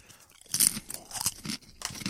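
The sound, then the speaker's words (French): Crunching of potato chips being bitten and chewed: several sharp, crisp bursts of crackle at irregular moments, separated by quieter chewing, with no talk. “Hey, t'as de la patate. J'ai pris deux chips”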